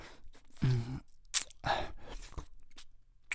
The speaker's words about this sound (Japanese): もっといっぱい舐めさせて